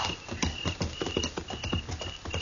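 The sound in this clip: Horses' hooves clip-clop steadily as riders ride by moonlight, with many quick, evenly spaced hoofbeats in a continuous rhythm and a faint high steady tone underneath.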